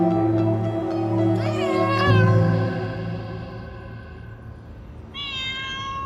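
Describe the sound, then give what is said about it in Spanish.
A cat meows twice in drawn-out, wavering cries separated by a pause, heard over a low, steady background drone that fades after the first meow. “El último día, Gato maulló y maulló”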